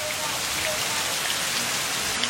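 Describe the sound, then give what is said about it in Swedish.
Heavy rain falling outside during a sudden downpour in Sri Lanka, a steady, dense, loud hiss with no breaks or pauses. “Ute regnade kraftigt.”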